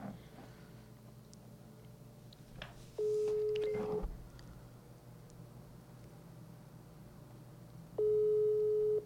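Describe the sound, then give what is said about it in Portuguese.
Telephone call tone from a call that goes unanswered: two steady one-second beeps about five seconds apart over a low, constant background hum. “Deixa eu ver se ele vai atender. Quem? Se chama Nicolas. Mas ele sempre me atende. Eu ontem ele me atendeu. Não vai atender também, quer ver?”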